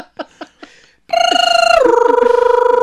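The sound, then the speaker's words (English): Dial-up modem connecting to the internet: three short dialing beeps, then a loud, steady electronic tone with a rapid pulsing buzz that steps down to a lower pitch partway through. “Honey, I'm trying to connect to the internet.”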